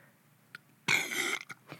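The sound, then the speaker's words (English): A human burp: one rough, raspy burst lasting about half a second, followed by a few short, fainter catches of breath, all fairly quiet against near silence. “I just keep burping all the time.”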